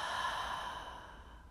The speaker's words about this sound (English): take a big breath in through the nose, out through the mouth,